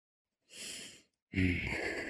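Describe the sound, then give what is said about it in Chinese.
Forceful breathing from someone off camera: two loud, airy breaths separated by a short silence, the first about half a second long, the second stronger and running to the end. “接着是画面外用力的吸气声”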